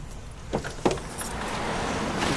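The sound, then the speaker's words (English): Keys jangle briefly as someone gets into a car: two short metallic jingles and clicks come early, followed by a soft, steady background hiss. “Quinn and Paws watch out the window as Miss Stout gets in her car.”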